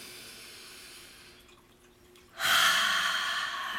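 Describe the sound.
Deep breathing: a long, soft stretch of airy breath, then a sudden louder rush of air that holds steady to the end, with no talk.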